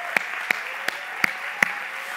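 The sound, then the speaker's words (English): Hand clapping welcomes a speaker to the stage: five sharp, separate claps spaced at an even, unhurried pace over a faint background hiss. “And I want you to put your hands together and welcome to the stage Aura Lynn. Can you put your hands together? Come on, let's welcome her.”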